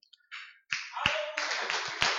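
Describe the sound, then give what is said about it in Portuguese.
A church audience clapping in applause: a few scattered claps, then dense, sustained clapping that holds steady with occasional sharper peaks. “A melhor palma que eu já vi hoje. A melhor salva de palmas que já deram esse ano.”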